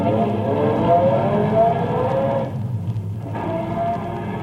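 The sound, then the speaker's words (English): A car pulls away as the driver presses the gas: a steady, droning engine hum that dips briefly partway through, then returns at a similar level. “Get in. My foot's pressing the gas.”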